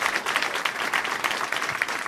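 Applause from a crowd greets the host's mother as she is welcomed on as a guest: brisk, dense clapping at a steady level from start to finish.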